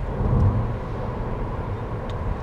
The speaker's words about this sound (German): Das Auto läuft ruhig in der menschenleeren Gegend.